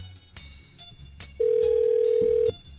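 A telephone line tone sounds as a number is dialed on a landline call: one loud, steady, pure tone of about a second, preceded by a few faint clicks and handling noises.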